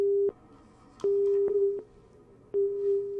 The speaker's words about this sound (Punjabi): ਕਾਲ ਕੱਟ ਗਈ ਹੈ ਜੀ